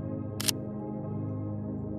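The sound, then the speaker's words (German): Camera shutter taking a photo, one short, crisp click over a soft, steady tonal background. “Und natürlich bekommst du auch ein Foto mit dem Dornröschen.”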